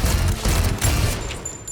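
Rapid gunfire from a film trailer, a dense, loud volley of overlapping shots and booms that runs almost without break for under two seconds, with no talk.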